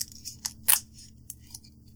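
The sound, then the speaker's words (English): A product package being ripped open: a few quiet, sharp crinkles and snaps with one louder tearing burst near the middle. The sounds are brief and scattered, and no one speaks. “so cracking this sucker open. Rip it.”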